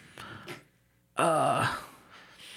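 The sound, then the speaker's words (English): A person groans as if waking up hurt, one loud, voiced, strained groan lasting about half a second, with quieter breathy sounds before it and faint sound after. “I'm going to groan. That groan groans you into consciousness.”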